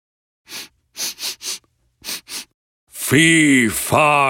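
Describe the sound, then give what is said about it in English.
A performer imitates a giant sniffing the air with six sharp nasal sniffs in uneven bursts, then breaks into loud, deep, drawn-out voiced speech. “The giant starts sniffing the air.”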